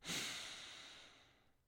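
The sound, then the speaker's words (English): One long, soft inhale through the nose during a guided breathing exercise, a single airy breath that swells quickly and then slowly fades, heard alone. “So first of all, in through the nose, just one big inhale.”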